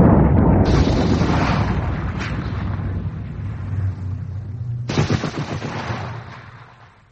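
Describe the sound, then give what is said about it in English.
A grenade explosion and gunfire: loud, rumbling bursts fill the opening seconds, a second sharp burst strikes about five seconds in, and the noise tails off toward the end. “Grenade!”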